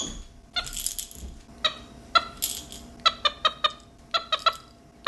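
A 21-year-old, 5-pound pet capuchin helper monkey calling at home with quick, high, squeaky chirps. The calls come in short bursts, then cluster into a rapid string of sharp peeps near the end, with no talking.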